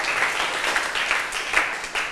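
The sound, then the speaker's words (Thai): Students clapping for themselves in a Thai classroom, an irregular patter of many hands at moderate volume with a few sharper claps standing out. “ว ันศุกร์ถูกต้องค่ะนักเรียนเก่งมากปรบมือให้ตัวเองหน่อย”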